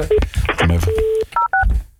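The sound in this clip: A few short, clear DTMF beeps sound as a telephone number is dialed on the phone line, mixed in with a man talking.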